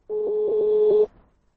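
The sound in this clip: A single steady ringing tone sounds as a telephone call is dialed and rings through. It is a mid-pitched electronic beep lasting about a second that stops abruptly, followed by silence.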